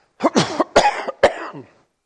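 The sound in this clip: A person coughs in a short, loud fit of a few harsh, barking coughs, with no talk over them.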